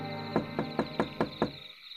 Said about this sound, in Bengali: রাতের খাওয়া দাওয়া শেষ করে সবে যখন বিছানায় গুছিয়ে বসেছি দরজায় টোকা পড়ল